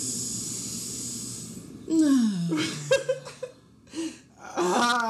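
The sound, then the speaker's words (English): A long hissing inhale through the nose during a breathing exercise, steady and fairly loud, followed by groaning vocal sounds and short snorting laughs. “And breathe out all the negativity, the anxiety. Oh, into the nose. Fucking A, I can't even do this right. Okay. You got it. I haven't smoked today, man. It's okay. Oh, my God, I'm doing it wrong still. It's okay. Breathe in.”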